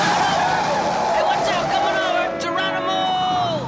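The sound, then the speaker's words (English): A car swerving through a U-turn across traffic, heard as a loud, steady rush of engine and road noise, with a tire squeal that drops in pitch near the end. “Pedro does a U-ey, swerving across traffic toward Anthony.”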